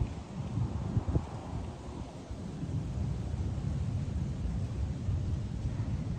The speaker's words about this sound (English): I just want to share these leaves here that I'm watching blow in the wind and just notice them.